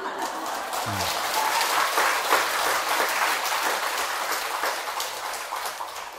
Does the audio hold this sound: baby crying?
no